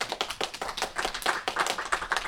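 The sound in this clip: Quiet applause after a song: a fast, fairly even run of hand claps with regular sharp peaks, soft and thin throughout.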